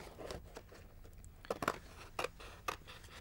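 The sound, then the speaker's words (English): Scissors cutting shapes out of cardboard for a model chair, a few quiet crisp snips and crunches in an uneven rhythm with soft rustling between them. “But I've redrawn it onto the card, so it's a simple case then of cutting out the shapes from the cardboard. Try and cut carefully to your lines.”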